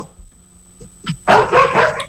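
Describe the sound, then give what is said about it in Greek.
Dogs bark as they pass by: a faint yip, then a loud burst of rapid, overlapping barking and yelping that fills the second half, with no talk. “έχουμε και τα σκυλιά εδώ περνάνε να μας φάμε”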